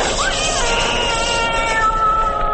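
A cat meows briefly near the start, a short rising cry over a steady droning background that carries on to the end.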